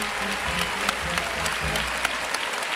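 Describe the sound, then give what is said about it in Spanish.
A bullring crowd gives an ovation to a bullfighter after a series of low passes: a thick, continuous burst of clapping with a few sharper claps standing out, steady in loudness from start to end. “de Ortega, que recibe la ovación del respetable.”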